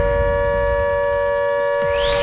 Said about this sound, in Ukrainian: ось таке дуже своєчасне нагадування від нашої автоматичної системи оповіщення